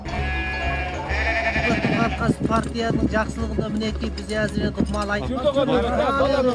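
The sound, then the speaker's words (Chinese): Sheep bleating as a Kazakh herders' flock spends March on a cold, windy northern Tianshan pasture. Many overlapping bleats come and go beneath steady voice narration. “带着羊群在这里生活了3个多月之后，哈萨克牧民江阿努尔”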